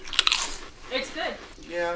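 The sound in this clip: Two quick, sharp crunches as people bite into seaweed-flavoured chips, followed by voices talking over softer mouth sounds.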